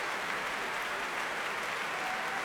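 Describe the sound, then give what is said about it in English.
Applause for an orchestra as the conductor returns to the stage for another bow: steady, dense clapping forms a continuous wash for the whole stretch, fairly faint, with no voices. “He claps the orchestra here.”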